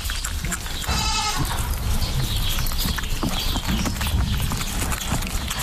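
Wet licking and rustling as a mother goat cleans her newborn kid at birth. A steady, dense noise runs throughout, with one short bleat near the start.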